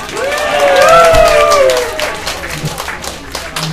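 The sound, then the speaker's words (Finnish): Applause and cheering from a crowd at a bingo game in a bar. A loud raised voice rings out over the first couple of seconds, and clapping continues to the end. “Annetaanpa pienet aplodit, sieltä nimittäin löytyi hämybingo.”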